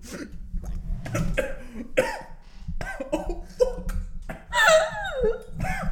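Coughing after inhaling water: a run of harsh, irregular coughs and throat-clearing sputters with strained, voiced gasps between them, growing loudest near the end.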